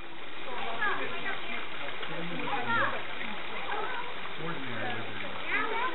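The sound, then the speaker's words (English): Water rushing and people splashing at a scenic water feature with dramatic drops in southwestern Virginia. A steady, full wash of water noise runs throughout, with people's voices rising over it. “That's the sound of people enjoying a scenic and splashy site in southwestern Virginia, where the main attraction is a type of water feature renowned for fascinating formations and dramatic drops.”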